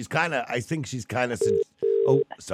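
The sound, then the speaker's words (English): A telephone line rings out in two short, steady mid-pitched tone bursts between stretches of talk. “hang on, sorry, somebody's ringing out on that line there”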